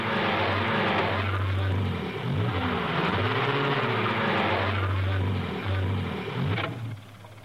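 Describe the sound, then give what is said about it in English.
A car engine revs hard as its wheels spin, stuck in mud. The droning pitch repeatedly swoops up and down, then holds steady before cutting off sharply near the end. “The car's wheels become mired in mud.”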